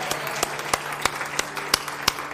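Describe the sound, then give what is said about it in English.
Congregation clapping in praise at a church service: steady, rhythmic claps in unison, evenly spaced and sharp, keeping a firm beat with no voices over them. “Lord a hand clap this evening. Hallelujah. He's worthy of our praise.”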